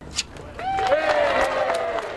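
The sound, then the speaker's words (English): A crowd cheers and applauds at a ribbon-cutting ceremony opening a newly renovated space in a former church, with rising whoops and scattered clapping over a steady bed of crowd noise. “Cheers came as the ribbon was cut and people filed into the newly renovated space.”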